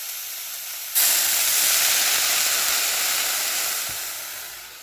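Leek risotto sizzles in a pan as a splash of liquid is added: a quiet sizzle bursts into a sudden loud, bright hiss that holds steady and then slowly fades.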